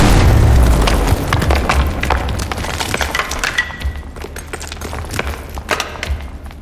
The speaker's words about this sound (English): And can you still do that thing where you explode when I punch you?